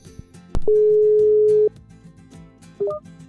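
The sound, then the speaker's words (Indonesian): A telephone tone sounds while a call is placed: one steady mid-pitched tone holds for about a second, then a brief cluster of short beeps steps upward in pitch. “Jadi mungkin sekarang kita mau telepon-telepon.”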